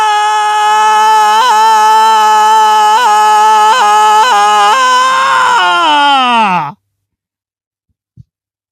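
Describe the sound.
A person screams in one long, loud, sustained cry with faint rhythmic pulses. Its pitch falls sharply as the cry breaks off, then a single brief click follows in the silence.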